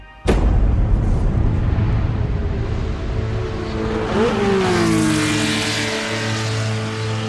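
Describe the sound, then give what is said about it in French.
Formula 1 race cars roar away from the start of the 1988 season-opening Grand Prix at Jacarepaguá, Rio de Janeiro: a sudden, loud burst of many engines that swells into a dense, sustained roar. “Dans la chaleur moite de l'Amérique du Sud, les Formule 1 viennent de prendre le départ du premier Grand Prix de la saison.”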